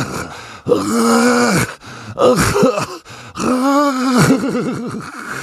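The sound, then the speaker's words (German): Ghastly groaning from under a bed: three long, loud, drawn-out moans with wavering, quavering pitch, separated by short pauses. “Was war das? Woher kam dieses grässliche Stöhnen?”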